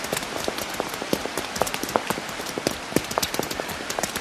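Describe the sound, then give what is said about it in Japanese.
Sudden heavy rain of large drops falling on a walk just after leaving a shop: a dense, irregular patter of many sharp drop hits over a steady wash of noise, fairly quiet overall, with no voices. “店を出て少し歩いたところでいきなり大粒の雨が落ちてきた。”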